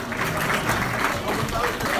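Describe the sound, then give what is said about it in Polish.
Audience applause for all the mothers at a Polish community event: a brief burst of clapping with voices mixed in, lasting about two seconds. “Brawo dla wszystkich mam, proszę Państwa.”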